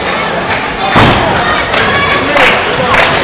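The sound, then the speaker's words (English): A heavy thud of a wrestler landing a missile drop kick in a pro wrestling ring booms out over constant loud crowd noise, with further smaller impacts following. “Big missile drop kick.”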